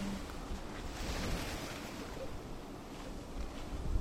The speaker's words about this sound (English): Listen to the waves as they carry you on.